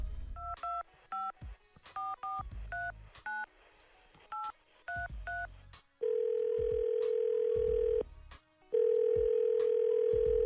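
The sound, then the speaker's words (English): Telephone keypad tones beep out a number being dialed during an on-air call, a quick run of many short dual-pitch beeps, then two long steady tones with a brief gap between them. “Let's dial that number.”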